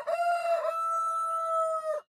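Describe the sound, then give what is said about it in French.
A rooster perched on a roof gives one loud, ringing cock-a-doodle-doo, a single harmonic-rich crow held at a steady pitch for about two seconds before cutting off. “le coq grimpe sur le toit et hurle un cocorico retentissant.”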